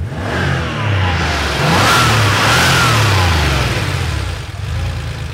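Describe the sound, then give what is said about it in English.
An air-cooled Porsche 911 engine whirs and churns loudly, revving up and holding a raspy, throbbing note through the middle before easing slightly toward the end. “Hear that? It's the signature whirring and churring of the air-cooled 911.”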